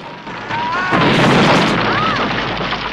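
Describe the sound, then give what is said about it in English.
A missile explodes against an oil-rig platform in a James Bond film action scene; a loud, broad boom swells in after half a second, holds heavily, then slowly thins toward the end. “A missile hits the platform.”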